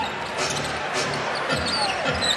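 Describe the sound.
Basketball dribbled on the court during a professional game, a few faint thuds buried under steady, roaring crowd noise.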